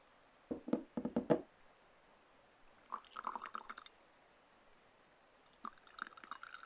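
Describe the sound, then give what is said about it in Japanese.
Faint trickling of tea poured alternately into several cups so the strength evens out, heard as three short separate bursts of splashing liquid with quiet pauses between them. “こうやって交互に注ぐとお茶の濃さが均一になるんだって。”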